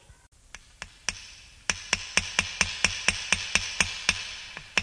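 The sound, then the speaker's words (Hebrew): Hammer blows drive nails into wooden boards while the walls of a sukkah are being built. A few scattered strikes give way to many sharp, evenly paced, ringing blows that fade slightly after each impact. “החזיקו חזק ילדים, עוד כמה מסמרים.”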